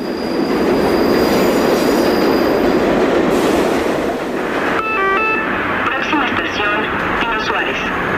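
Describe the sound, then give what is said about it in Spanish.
A Mexico City metro train runs underground with a loud, steady roar and squealing wheels. Later it is joined by tonal electronic signals, with voices heard over the noise. “Quien ha vivido en la Ciudad de México sabe que un día sin escuchar la voz del metro es casi imposible. El metro es un viaje subterráneo donde los sonidos nos recuerdan que esta ciudad nunca se detiene.”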